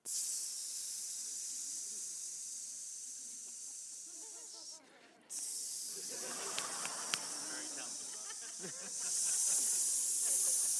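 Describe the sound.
A human voice imitates air hissing from a car tire leaking around a nail: a steady, constant breathy hiss that runs nearly unbroken, with a short break near the middle and slightly stronger toward the end.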